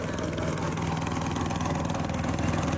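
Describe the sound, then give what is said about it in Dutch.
A motorboat engine drones steadily as the boat crosses floodwater toward stranded villages, a continuous, even, loud rumble with no breaks. “We gaan nu met een motorboot”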